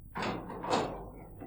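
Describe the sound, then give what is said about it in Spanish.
A large metal door opens with a single scraping, rushing sweep that swells and then fades away within about a second. “M abre la gran puerta metálica.”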